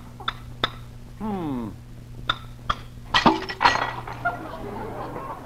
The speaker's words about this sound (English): I'll crack this egg on the side of a cup here.